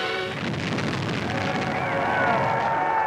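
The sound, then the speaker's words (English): Low, rolling roar of a demolition blast set off to clear old slum houses for a housing project, heard as a sustained, heavy rumble that stays steady for a few seconds with a faint tonal hum over it. “Harold Ickes, then Secretary of the Interior, personally sets off the initial blast.”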